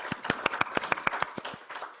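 Scattered clapping closes a recorded mentoring session, thanking three presenters. Sharp, distinct claps fall in a quick, fairly regular rhythm, as from only a few pairs of hands, and grow softer and sparser toward the end.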